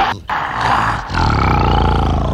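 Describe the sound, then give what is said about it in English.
A lion gives a loud, deep roar in two long, rough bursts, separated by a brief break, with the second burst sustained to the end. “Oh, Mommy, look, there's a ferocious lion.”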